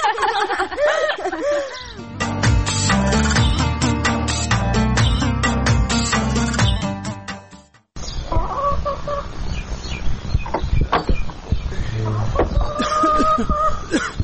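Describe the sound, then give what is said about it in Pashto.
Chickens cluck and squawk busily as they are fed dry bread. The clucking runs on, fades out briefly, and then the birds start calling again. “دلته یم، چرګانو ته وچه ډوډۍ خښته وم.”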